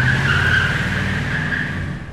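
Car tyres skid and squeal as a car drives off, a loud, sustained, steady screech over a low engine rumble that holds for about two seconds and eases slightly at the end.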